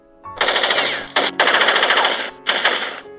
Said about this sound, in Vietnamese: Tức thì một loạt đạn xả về phía này.